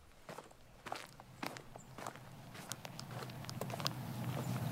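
Footsteps walk along a path through a tunnel of fallen, bent-over trees, with many quiet, irregular crunching steps and a low background rumble.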